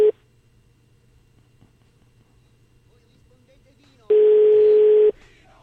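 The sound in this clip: A telephone call tone sounds while waiting for an answer: a clipped beep at the very start, a quiet stretch with low hum, then one steady, loud beep about a second long.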